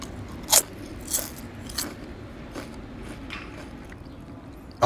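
Crisp bites into lightly salted Calbee potato chips: a few sharp, crackly crunches spaced apart, ending with one louder crunch, with no talking.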